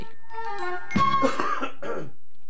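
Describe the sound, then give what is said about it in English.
A massive cough with throat clearing: a few loud, rough bursts of a single cough fit, standing out over a faint steady background. “you just did a massive cough. Sorry, I needed to cough.”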